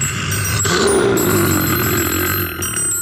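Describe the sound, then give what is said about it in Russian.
A telephone rings with a steady, shrill bell tone for about three seconds, loud and unbroken within a dense wash of other sound. “Тут у меня звонок один, очень важный. Ответить надо.”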